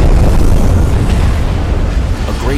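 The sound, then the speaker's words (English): A deep, roaring underwater explosion as the sinking warship Yahagi blows up just below the surface, a loud, continuous low rumble that barely lets up throughout. “But she doesn't go quietly. Just after slipping below the water, she explodes in a submarine volcanic eruption.”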